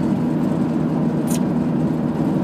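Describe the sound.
Steady car engine and road drone while driving on a long road trip during an overtake, loud and even throughout, with no distinct rise or pass-by.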